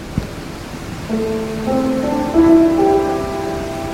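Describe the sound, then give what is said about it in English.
A pentatonic musical scale is played as a short run of sustained tonal notes that step upward one after another, clear and moderately loud over a faint, noisy background. “They have a scale called pentatonic. It sounds like this.”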